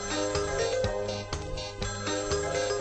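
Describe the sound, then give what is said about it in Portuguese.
A telephone rings as a melodic electronic tone inside a song track, its chiming notes repeating in a steady rhythm over a stepping bass line. “A faixa número 4 traz o som inconfundível do telefone. O telefone está a tocar.”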